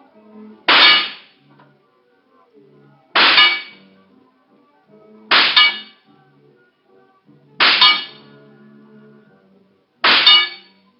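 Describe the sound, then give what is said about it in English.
Rifle shots at a carnival shooting gallery: five sharp, loud cracks evenly spaced about two seconds apart. Each has a bright, metallic ring that quickly dies away, with no voices in between. “Give me the rifle, mister. I got 5 more shots coming.”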